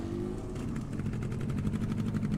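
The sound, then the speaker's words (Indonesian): A motorbike engine rumbles as the throttle is opened slowly, a low, steady throbbing drone with a fast pulsing rhythm and no voices. “Abi menarik gas perlahan.”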